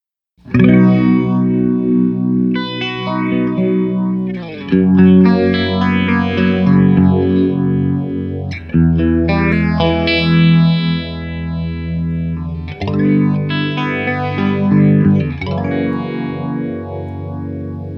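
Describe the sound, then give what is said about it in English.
Electric guitar played through a stereo Phase 99 phaser pedal, its sustained chords swirling with a slow, sweeping whoosh; the chords change roughly every four seconds, loud and alone with no talking. “Go back to the Phase 99, which is what I know you really want to hear anyway.”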